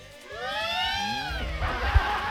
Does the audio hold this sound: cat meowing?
yes